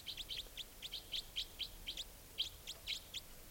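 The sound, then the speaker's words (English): Wild bird calls, a rapid series of short, high chirps repeated in quick irregular clusters, fairly faint over a low steady background hiss, with no talk. “The wild bird is a less forceful of the calls, and I'm trying to point at the wild bird.”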